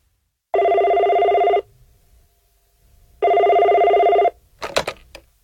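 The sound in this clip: A telephone bell rings on an advice line before a call is answered: two long, even bursts of ringing separated by a pause, followed by a brief clatter.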